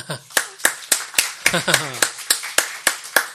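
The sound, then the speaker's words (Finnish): Hand clapping in praise of God during a Finnish worship gathering, about a dozen crisp claps on a steady, even beat, with a voice briefly speaking over the middle. “Jos taputetaan Jumalalla.”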